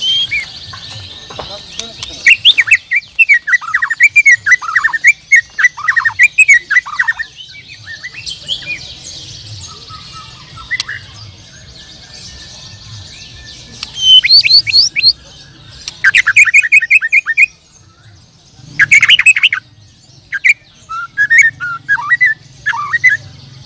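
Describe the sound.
A white-rumped shama sings a long run of loud, varied whistles, sharp chirps and rapid trills in bursts with brief gaps, while a constant hiss and low murmuring voices continue underneath.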